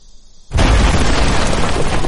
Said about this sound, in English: That was the bomb that still makes Kent jump.